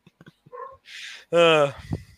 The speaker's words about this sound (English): Who has a dog in the background? That's my dog.